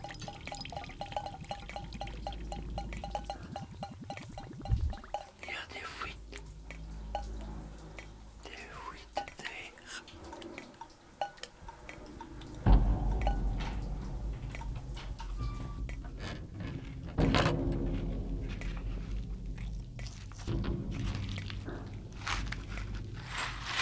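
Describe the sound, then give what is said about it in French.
Water drips into basins from leaks in a damp, damaged home with holes and mould on the skirting boards. Small drips tick in a steady run at first, then louder knocks and rustling noise take over. “J'ai mis des bassines. Elles se remplissent trop vite.”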